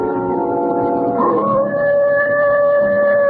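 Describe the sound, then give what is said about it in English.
A wolf howls in one long, loud cry that swoops upward partway through, then holds a steady, sustained tone to the end, with no other voices. “That wolf again.”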